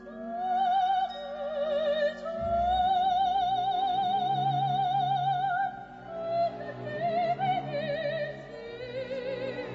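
An operatic soprano sings an aria from an opera, holding long notes with a wide, steady vibrato over soft accompaniment. A short pause comes near the middle before the melody resumes.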